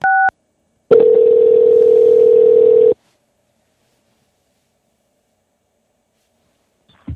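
Telephone keypad dialing an extension on an automated company phone line: one short two-tone keypress beep, then a long, steady, loud tone lasting about two seconds, followed by near silence.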